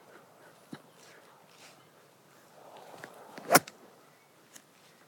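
A golf club strikes the ball on a shot toward the green, one sharp, brief crack standing out against faint outdoor ambience.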